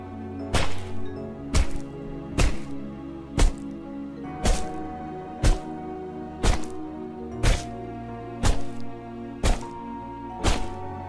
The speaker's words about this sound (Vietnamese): Những tiếng đập chàn chát vang lên. Cứ thế, ông Mẹo cầm hòn đá to đập thẳng vào đầu và người của bà Lam.